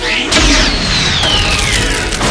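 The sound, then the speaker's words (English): A heavy weapon blast rings out as a vehicle-mounted gun fires at an ammunition truck during a chase. A sharp booming impact is followed by a long, descending whistle-like tone over rumbling noise. “Dodging machine gun bullets, Vinny finds a weapon pad on his vehicle and fires at an ammunition truck.”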